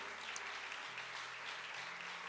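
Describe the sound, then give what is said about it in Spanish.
Faint audience applause during a church service, praising God: a soft, even wash of clapping that holds steady without rising or falling. “Démosle un aplauso a Dios. Un aplauso al Señor.”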